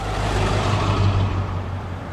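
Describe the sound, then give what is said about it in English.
Cars at the entrance to Glacier Park give off a steady, low engine rumble that holds fairly loud and even throughout, with no voices. “While I've been standing here at the entrance to Glacier Park, I've seen numerous cars pull up, see the sign, turn around, drive off”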